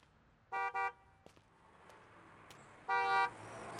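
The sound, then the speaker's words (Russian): Car horns sound on a street as passenger cars drive slowly past: a quick double toot, a pause, then a single longer honk over a low, steady traffic hum. “Маша идет по пустой улице. Рядом медленно проезжают легковые автомобили.”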